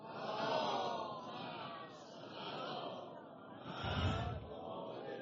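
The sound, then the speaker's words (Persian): A crowd recites a salawat, a blessing on the Prophet, together at a religious talk: a sustained, murmuring chorus of many voices that swells and ebbs in waves, with no single voice standing out. “یه صلوات بفرستید.”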